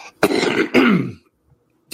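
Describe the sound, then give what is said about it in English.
A man clears his throat on air after choking up: two harsh, rasping bursts in quick succession, then a short silence before another rough burst begins. “And pardon me. Boy, isn't that timely here? I don't think I've ever choked up on the air before.”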